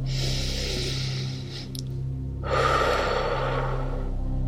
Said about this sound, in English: big deep breath in.